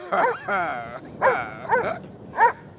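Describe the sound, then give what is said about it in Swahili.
A dog barks in a few short, sharp bursts, with a drawn-out whining tone near the start. “Mbwa, mbwa, toka hapa! Laga mbwa wewe, taka kuniuma? Hebu njoo jaribu.”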